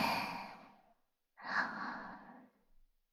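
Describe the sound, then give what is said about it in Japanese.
Deep breathing during a guided relaxation exercise: two long, soft, airy breaths separated by a short silent pause. “深呼吸しよっか。はい。吸って。”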